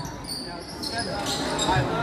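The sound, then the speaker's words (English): A basketball is dribbled on the court during a game between two teams. The bounces blend into a steady wash of crowd noise and are not picked out as separate hits. “dribbling it around”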